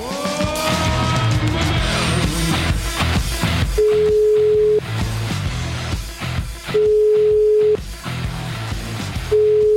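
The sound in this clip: Telephone ringback tones sound as a call is placed. Three long steady tones at one pitch, each about a second long, repeat every few seconds over louder, busy background sound.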